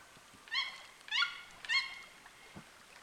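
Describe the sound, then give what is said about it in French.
Toucans with black plumage, white throats and large red bills with a yellow ridge call from a branch in the rainforest canopy: three loud, evenly spaced harsh croaking calls, then a fainter fourth. “Un plumage noir, la gorge blanche, un gros bec rouge avec une arête jaune, le tour des yeux bleus. Ce sont des toucans.”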